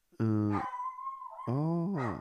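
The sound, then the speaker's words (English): A dog howls and whimpers loudly and alone: a long harmonic howl thins into a high, steady whine, then a second wavering howl follows. “That's my dog.”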